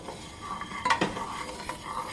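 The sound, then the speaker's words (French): A spoon stirs egg yolks in a pot, cooked slowly without boiling and stirred in figure-eight motions. Soft continuous scraping with a few light clinks and sharper scrapes against the pot, with no talking. “En remuant toujours en 8.”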